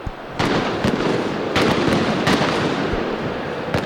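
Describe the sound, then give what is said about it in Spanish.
Firecrackers and fireworks go off outside a football stadium before a cup final. Several sharp, loud bangs punctuate a dense, continuous crackling roar. “Algunas bombas de estruendo que suenan en las inmediaciones del estadio, fuegos de artificio, bengalas también.”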